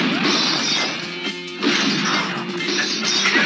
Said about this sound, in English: There's somebody shooting out here! In the window!